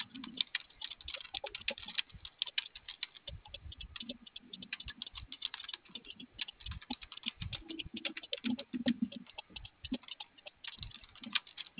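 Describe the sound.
Steady typing on a keyboard produces many quick, faint key clicks in a continuous, uneven patter with soft, dull thumps now and then.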